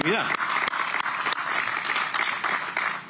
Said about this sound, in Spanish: Démosle un aplauso a los parlamentarios